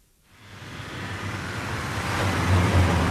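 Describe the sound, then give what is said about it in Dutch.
Military vehicles, including infantry vehicles, Humvees and a tank carried on a trailer, drive along a road back from a front area. A broad roar of engines and tyres swells steadily from near silence to loud, with a low rumble underneath. “Je ziet langs rijden infanterievoertuigen, Humvees. Een tank wordt op een oplegger teruggereden vanaf het frontgebied.”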